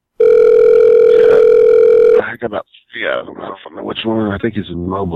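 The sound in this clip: A steady electronic telephone tone sounds unbroken for about two seconds during a phone call, then cuts off abruptly as a person begins talking.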